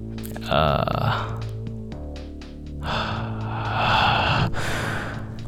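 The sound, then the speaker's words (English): Heavy breathing and gasping directly into a microphone: a continuous run of loud, close, breathy exhalations and snort-like huffs that swell in two stronger bursts. “yes, breathing into the mic, ASMR podcast now.”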